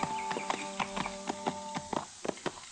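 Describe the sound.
Horses' hooves clip-clop as two riders head out from Dodge toward a ranch, many crisp, unevenly spaced hoof strikes at a walking pace, moderately loud and without talk.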